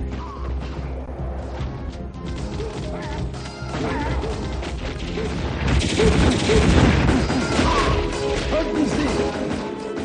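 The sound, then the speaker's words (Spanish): Loud video game gunfire tears through in dense bursts, with many crashes, booms and impacts as targets are shot down. The onslaught builds and grows heavier toward the end. “La chica enciende la pantalla y comienza a jugar a un videojuego en el que dispara matando a unos muñecos.”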